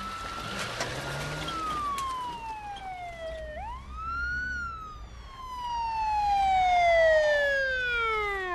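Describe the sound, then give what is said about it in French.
A police car siren wails: a long downward sweep, a sudden upward swoop, then another slow falling glide, growing louder toward the end and sounding alone without voices. “Regarde. Voilà la police.”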